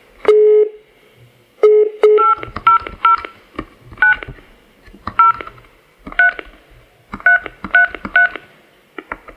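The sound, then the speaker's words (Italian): Telephone keypad DTMF tones sound as keys are pressed on an automated phone payment menu. Many short, sharp beeps of varying pitch come in an irregular rhythm, with brief gaps between them. “Per il pagamento di avvisi, cartelle, ICI, bollettini RAV o altri pagamenti, digiti 2. Per ascoltare il messaggio, digiti cancelletto.”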